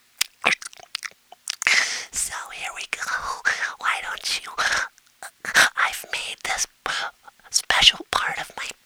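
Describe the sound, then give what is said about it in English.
ASMR whispering with mouth noises, in breathy bursts of broken, uneven rhythm, with soft wet clicks and crunchy, chewing-like sounds between the whispers. “That's how you torture someone with misophonia. You do the ASMR. Hey, we're going to do some ASMR, all right?”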